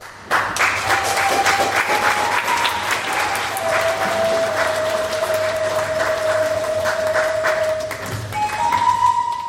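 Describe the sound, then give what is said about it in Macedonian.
Applause greets Victoria's 2023 graduating class at a formal ceremony in Sunshine West: sustained, even clapping from a large audience that holds steady throughout, with a faint steady tone running beneath. “Матурантите генерација 2023 од Викторија на свечен настан во Саншайн Уест беа пречекани со голем аплауз.”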